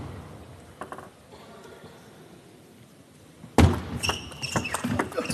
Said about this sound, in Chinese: 好的， 1-5， 一本非常利落的发球抢攻。